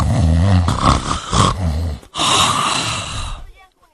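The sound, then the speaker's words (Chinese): A man's voice imitates the loud snoring of a drunk man asleep: two long, rough, roaring snores split by a brief break, the second fading away into quiet at the end. “这鼾声起来了”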